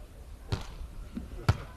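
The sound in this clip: A volleyball bounced on the court floor by a Jinan team player before serving in a volleyball match: a few dull, soft thuds spaced apart over low background noise.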